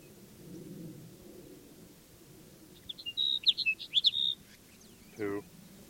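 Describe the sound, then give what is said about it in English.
Sage Sparrow song: one short phrase of rapid, high, chirpy notes that stands out clearly over a soft low background rumble. “Sage Sparrow number 2.”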